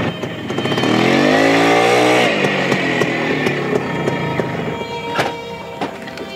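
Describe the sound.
Motorbike engine starting off and pulling away, its tone climbing steadily over the first two seconds before settling into a steady, rough rumble broken by a few sharp clicks and knocks. No voices.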